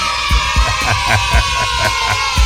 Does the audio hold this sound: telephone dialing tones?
no